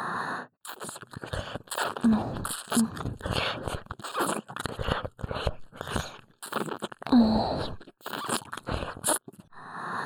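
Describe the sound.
ASMR ear licking, with wet, crunchy mouth sounds coming in uneven bursts separated by short silences and a soft voice at times between them.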